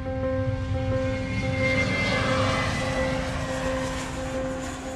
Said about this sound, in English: Cabin crew, prepare for landing, thank you.